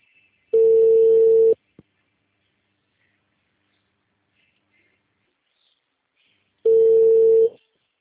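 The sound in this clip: Telephone tone after a call is hung up: two long, steady single-pitch beeps about a second each, separated by several seconds of silence, with a brief click just after the first.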